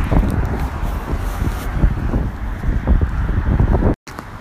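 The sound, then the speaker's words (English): Strong, cold wind on a bright sunny day, blowing hard against the microphone as a steady, loud, low rumbling buffet that continues without a break until a brief cut near the end. “but the wind, holy smokes. Definitely an Arctic chill left in that sucker.”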